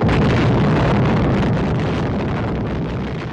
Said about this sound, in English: In July 1946, the Navy exploded 2 nuclear bombs in Bikini Lagoon in the Marshall Islands, part of something called Operation Crossroads.